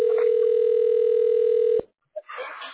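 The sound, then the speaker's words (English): A telephone line plays a steady tone while a call is being transferred: one continuous tone holds level for nearly two seconds, then cuts off abruptly into a brief silence. “Your call is being transferred. Please hold.”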